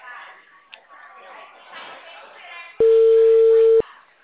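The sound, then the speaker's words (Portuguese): A phone ringback tone plays on an unanswered return call: after a few seconds of muffled voices, a single steady, mid-pitched tone sounds for about one second, then stops. “Aí eu tô ligando de volta e ele não tá atendendo.”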